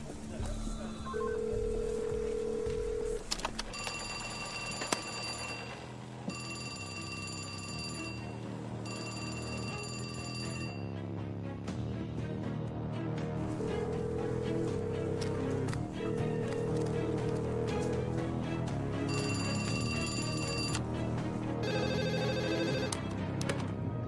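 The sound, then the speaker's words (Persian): A telephone is dialed and then rings, placed by police negotiators calling into a banknote printing site during an armed robbery. Repeated electronic tones and rings sound over a dense, steady background. “داریم تماس میگیریم. رئیس انگار داره زنگ میخوره.”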